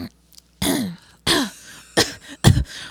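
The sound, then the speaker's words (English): A voice imitates a tickly, dry cough with four short, throaty coughing bursts spaced fairly evenly. The last burst is the loudest, and there is no other talk. “it was just this really bad, like, tickly cough”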